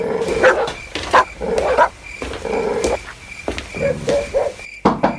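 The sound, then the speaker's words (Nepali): A dog barks in a series of sharp, loud bursts spread across a few seconds, with short gaps between them and a faint steady high tone in the background. “ए कुकुर हो”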